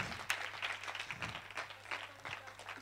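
Congregation applauding in church: faint, steady clapping from a group, soft and continuous over a low background hum.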